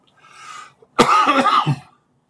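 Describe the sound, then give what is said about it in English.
A single harsh, raspy cough, a lingering cough left over after an illness and an emergency room stay, breaks out loudly and trails off with a throaty rattle, preceded by a faint breath. “I have a lingering cough left over, which will go in time.”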